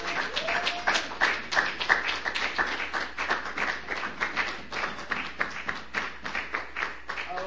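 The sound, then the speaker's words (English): Audience clapping with a few whoops welcoming a poet back to a Monday poetry night in Bellingham; rhythmic, pulsing claps at moderate volume, with the whoops coming early and the clapping settling into a steady beat. “Poetry night rings through. Let's put our hands together and welcome Spike Daeley back to Monday night.”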